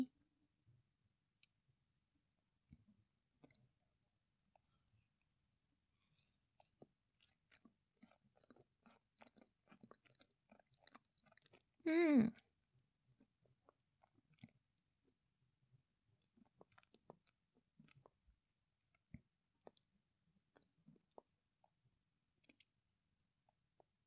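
Chewing sweets eaten with coffee: soft, irregular crunchy clicks scattered throughout, faint and alone, with one louder, brief mouth sound near the middle.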